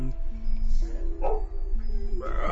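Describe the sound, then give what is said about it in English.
A dog barks a few times in short yipping bursts over a sustained low tonal background. “yes, my dog barking”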